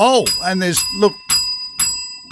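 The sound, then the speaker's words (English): A bell rings several times at a fundraising event, once for each $1,000 donation, its bright metallic strikes spaced out after a voice at the start. “There's a lot of bells. Yeah, every time there's a bell, that means another $1,000 and another step.”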